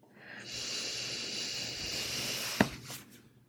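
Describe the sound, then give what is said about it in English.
A deep breath drawn in during a guided affirmation exercise: a long, steady breathy hiss of about two seconds, ending in a short sharp click before it fades. “Together, we breathe in the good and we release the heavy. Are you ready? Take a deep breath in.”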